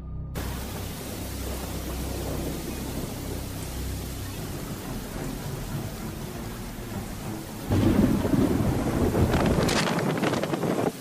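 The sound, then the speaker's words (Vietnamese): Heavy rain pours onto the roof of a speeding car in a steady, dense rushing wash that swells louder and harsher from about eight seconds on. “Trời mưa như trút nước, những giọt mưa quất rằng rạc trên nóc chiếc xe đang chạy hết tốc độ.”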